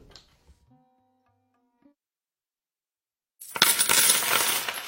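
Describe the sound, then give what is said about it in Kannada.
Coins dropping and clinking in a dense, loud rush during the last second and a half, after a nearly quiet start with a few faint ticks and soft tones. “ನಾಣ್ಯ ನಾಣ್ಯ ನಾಣ್ಯ ನಡೆಯುತ್ತಣ್ಣ ಅಣ್ಣ.”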